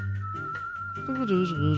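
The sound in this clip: Whistling holds one steady, high note through the whole stretch, fairly faint, with voices talking over it.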